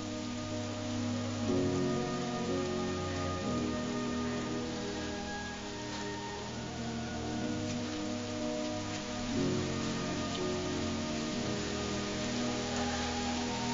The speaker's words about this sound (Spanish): Sale y se pone bajo la lluvia dejando que moje su rostro.